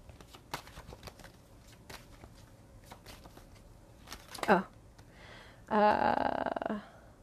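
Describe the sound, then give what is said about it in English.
A deck of cards being shuffled, with a brief rustle midway and then a louder, crisp riffling burst lasting about a second before it stops, against a quiet background. “I got exactly, 4 cards, like 3 more gently came out, with that last little shuffle.”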